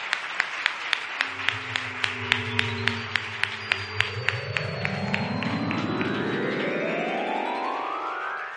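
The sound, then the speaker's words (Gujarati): Audience applause welcoming the Acharya Maharaj at a religious assembly: dense, steady clapping with a regular beat of sharper claps throughout, alongside sustained tones that slowly rise in pitch. “પૂજ્યપાદ મહારાજશ્રીનું ખૂબ તાલીવાદનથી એકવાર આપણે સ્વાગત કરીએ.”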